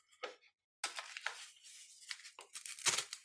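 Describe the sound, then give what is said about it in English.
Paper torn up during a New Year ritual of letting go of old habits: a short ripping burst, a pause, then a longer run of quiet tearing and crinkling rips. “I invite you to tear it up.”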